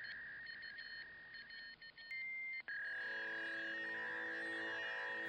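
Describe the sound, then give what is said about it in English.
A dial-up modem connects over a telephone line, its steady electronic tones and beeps giving way to a loud, continuous buzzing hiss layered with pitched tones. No voices are heard. “sound you got when you accidentally dialed a fax line from your telephone? Or when you picked up a landline that was being used to dial up the internet at that moment?”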